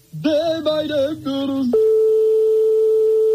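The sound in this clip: Ringing tone on an outgoing call to a private home during a radio phone-in game: a brief harmonic chime-like sound, then a loud, steady single-pitch tone that holds unbroken to the end.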